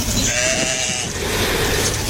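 Sheep bleat in a flock led by a ram, giving wavering, overlapping cries that run through the whole stretch over a constant rough background noise.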